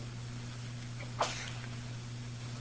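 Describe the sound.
A single short sneeze breaks through a faint, steady electrical hum, then the hum carries on alone.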